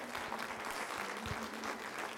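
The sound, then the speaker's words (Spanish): Church audience applauding in praise of Jesus while standing, a steady, even patter of many hands clapping at a soft, unchanging level. “Dele fuerte el aplauso a Jesús y póngase de pie. Gloria a Dios. ¿Quiere seguir aplaudiendo un poquito más?”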